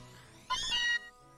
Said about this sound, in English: A Meowth? When did you catch him?